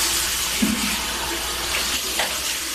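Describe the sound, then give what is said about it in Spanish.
Water runs from a sink tap as El Chapo Guzmán washes his face and hair at a basin after his 2016 capture in Los Mochis. The flow is a steady, loud rush with small splashes. “las imágenes muestran al narcotraficante lavando su rostro y su cabello en un lavabo”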